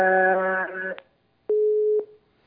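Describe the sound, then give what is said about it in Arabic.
Telephone busy tone after a caller's line from Algeria disconnected: a buzzy harmonic tone, a brief click, then one steady mid-pitched beep about half a second long, followed by silence. “انقطع اتصال صالح من الجزائر، والصوت حقيقة أخي صالح كان يعني غير واضح جيدا بالنسبة لي، هناك تشويش”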